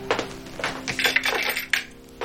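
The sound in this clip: Keys dropping and jangling produce a few bright metallic clinks and rattles spread over about two seconds, with sharp separate hits and no voices.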